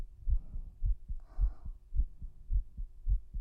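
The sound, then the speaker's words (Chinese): Fast heartbeat thumping in a quick, even rhythm, about six low muffled beats each with a softer second pulse, over a faint steady hum. “感受到我心跳了吗？很快啊，”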